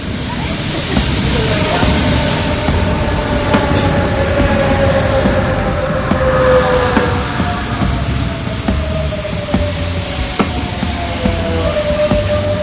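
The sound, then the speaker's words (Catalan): Train at Montcada Santa Maria commuter rail station in Catalonia, a steady loud rumble of rolling wheels with scattered clicks and thin, drawn-out squealing tones riding over the low roar. “L'altra novetat, aquesta sí a Montcada, és que l'estació de Montcada Santa Maria ha estat la primera de Catalunya en incorporar la imatge de Rodalies de Catalunya. Us convidem a que hi feu una visita amb nosaltres.”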